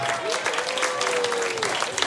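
Audience applause for a singer after a lively Schlager performance in Tirol, a dense, steady wash of clapping that holds at an even, full volume throughout.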